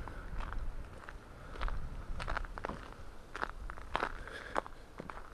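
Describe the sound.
Footsteps crunch along a beaten-down ice path on the way out to the woods, with many irregular, crisp, crackling steps at a steady walking pace.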